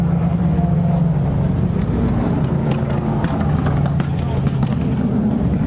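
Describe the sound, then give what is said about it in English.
LMP1 and LMP2 prototype race cars and Corvettes roar past at the start of a race, a loud, continuous engine drone with rapid rising-and-falling bursts as the cars go by, with talking over it. “There go all the LMP1s, here's the LMP2s and the Corvettes.”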